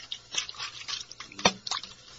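Wet sloshing and dripping as rags are washed by hand in water, with a few brief splashes standing out, one sharper than the rest, over soft trickling.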